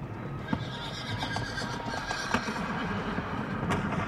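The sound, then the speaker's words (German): A horse whinnies, with hoof clip-clops over a constant rushing noise, in a scene set on scorching ground on a very hot day during the civil war in Russia. “Das ist sein Pferd, ja. Das erkenne ich.”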